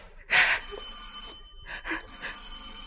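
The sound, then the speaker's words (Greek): A telephone bell rings in a few short, bright bursts separated by brief gaps, with no voices. “εγώ πρέπει να κάθομαι με σταυρωμένα τα χέρια και να περιμένω κάθε φορά που χτυπάει το τηλέφωνο.”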